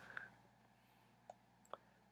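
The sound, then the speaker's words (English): A super loud computer mouse gives three short, separate clicks at uneven gaps over a quiet, steady low background hum. “I've gotta click my super loud mouse.”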